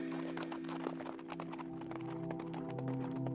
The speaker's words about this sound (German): drüben vom Hohlwege herüber erklangen Jagdhornruf und Pferdegetrappel.